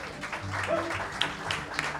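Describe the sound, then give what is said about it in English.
Faint applause from an audience at a live show, clapping for the band's guitarist: a soft, steady patter of hands with a few sharper claps standing out near the end. “That is D-Mark Conway on guitar. Give him a round of applause.”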